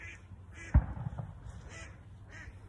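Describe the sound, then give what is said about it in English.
Many ducks quack and honk in faint, nasal calls that come in scattered bursts, a few overlapping, with no voices among them. “There's so many ducks. What the hell's going on?”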